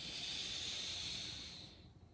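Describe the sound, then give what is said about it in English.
A deep inhaled breath during a guided meditation, just before chanting Om: a breathy, airy hiss that holds steady for about a second and a half, then fades away. “Take a deep breath in.”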